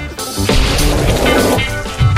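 Loud explosion sound effect opening a news segment: a heavy, rumbling blast with a crashing, noisy texture that sustains for about two seconds.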